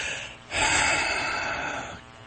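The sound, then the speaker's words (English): A single deep breath drawn in, a loud, breathy inhale lasting about a second and a half that then fades, with no talking. “Everybody take a deep breath now.”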